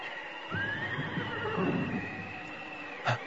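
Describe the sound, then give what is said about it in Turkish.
A white horse arriving in a storm gives one long, high whinny with a wavering pitch over a steady rushing background, and a short dull knock comes near the end. “Bir at sesi mi duydum?”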